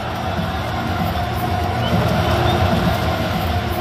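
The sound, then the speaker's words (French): A stadium crowd at Stade Bollaert celebrates RC Lens winning the club's first Coupe de France. A continuous, loud roar of many voices holds steady with no clear breaks. “Et c'était l'ambiance des grands soirs hier au Stade Bollaert.”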